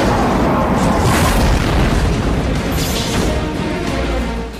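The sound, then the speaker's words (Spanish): A bomb explosion bursts out at a wedding as a loud, dense roaring blast that fills the whole stretch, staying heavy throughout and easing slightly only at the very end, with no talk over it. “¡Dios mío! ¡Era un robot bomba!”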